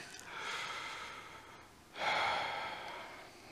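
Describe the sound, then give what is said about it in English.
One slow, deep breath, drawn in and then let out, soft and unhurried with no talk over it, during a guided prayer. “Lord Jesus, help us right now take a deep breath.”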